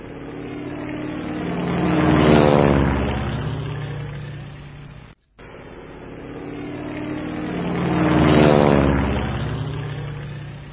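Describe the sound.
A US military aircraft engine drones low overhead in a wartime setting. The hum swells to a loud peak and fades, breaks off in a brief silent gap, then swells and fades again.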